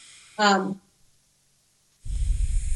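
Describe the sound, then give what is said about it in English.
A deep calming breath taken during a relaxation exercise: a brief voiced sound, a pause, then a low, breathy rush of air near the end. “Also take deep breaths. Deep breaths,”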